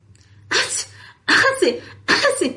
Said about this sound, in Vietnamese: Hắt xì ba cái liên tiếp